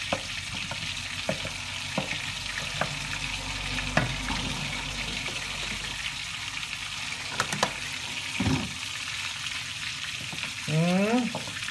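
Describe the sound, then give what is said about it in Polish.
Butter, flour and milk are stirred together in a pan, giving a steady, faint sizzle with scattered light scrapes and clicks of the spoon throughout. “i dodajemy mleka, ale nie za dużo, tak troszeczkę, i musimy to rozmieszać, żeby to się rozpuściło, masło z mąki.”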